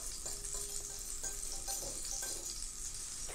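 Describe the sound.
Butter melting and sizzling in a pan while a muhallebili kadayıf dessert is prepared, a steady hissing fry with faint crackles throughout and no voices.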